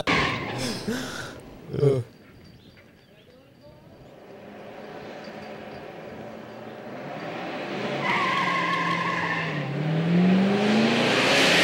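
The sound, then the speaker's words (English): Car doing a burnout at Watkins Glen in a burnout contest: spinning tires give a long, harsh screeching roar as the engine revs, its pitch climbing near the end, with people talking over parts of it. “You were getting the cars and doing a burnout contest. Burnout top speed around Watkins Glen. See if we can flat spot all four tires on 60 to zero.”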